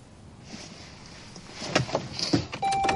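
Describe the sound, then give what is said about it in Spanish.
A car starts and reverses away from a building. A low, quiet rumble builds gradually, with a few soft clicks and knocks before it settles into a steadier, louder drone. “Arranca y retrocede alejándose del edificio de las reuniones de apoyo.”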